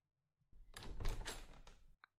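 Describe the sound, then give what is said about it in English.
An office door is locked with a soft rattling scrape of handle and latch lasting over a second, followed by a single short, sharp click, all faint against near silence. “Lock the door.”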